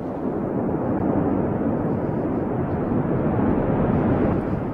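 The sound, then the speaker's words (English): Rocket launch roar, a dense, continuous rumbling blast that stays loud and steady throughout, with no voices. “Weather permitting, a rocket like this one will be launched from a NASA facility in Virginia.”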